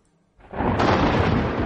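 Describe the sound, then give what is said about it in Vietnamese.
A thunderclap bursts from the sky: after a brief near-silence, a sudden loud crack erupts and spreads into a sustained, broad rumbling roar that holds to the end. “Trong khoảnh khắc tiếng nổ đinh tai nhức óc từ trên trời vọng xuống”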